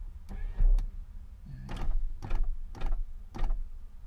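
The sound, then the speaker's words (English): Car power windows rolling down in several short motorized bursts, each a whirring mechanical hum with brief pauses between, fairly loud and without talk. “let me roll out the windows a little bit more.”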